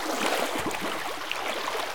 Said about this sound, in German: Sagen Sie, läuft da bei Ihnen irgendwo Wasser?